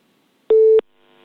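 A telephone line tone sounds on a radio call-in line where the dialed caller does not answer. A single loud, steady, pure beep lasts about a third of a second, then falls to near silence.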